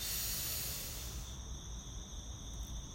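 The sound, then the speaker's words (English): A slow, deep breath during a guided belly-breathing exercise, heard as a faint, steady airy hiss lasting a few seconds with no talking. “So let's take our breaths. So breathe in”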